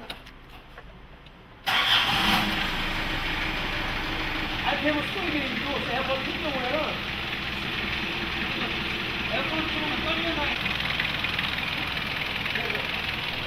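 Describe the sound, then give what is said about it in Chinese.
A car engine cranks and catches, then settles into a steady, rumbling idle that runs on at an even level while people talk over it. “시동걸어봅니다”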